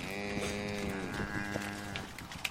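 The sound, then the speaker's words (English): A still-wet, shivering newborn crossbred bull calf on a dairy calls out with a drawn-out, wavering moo, steady and fairly loud throughout. “Pointing down at a still wet, shivering calf, he grins. Yeah, a little bull calf.”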